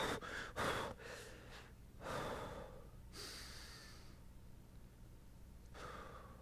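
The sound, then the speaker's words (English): Slow, deep breaths from a spiritual breathing practice, soft and airy. Several separate inhales and exhales come in uneven bursts with quiet gaps between them. No one speaks. “one of the practices that I think I've just learned to do, but I didn't know I was doing it, was spiritual breathing”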